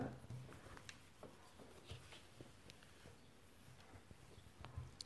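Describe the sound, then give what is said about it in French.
Soft scratching of a pen writing the short French word "le" by hand on paper: a few faint, quick strokes and light taps, very quiet throughout. “Maintenant, on va écrire le petit mot le.”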